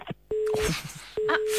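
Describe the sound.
Telephone tone sounding after the caller hangs up: two steady, mid-pitched beeps separated by a short gap, clear and fairly loud.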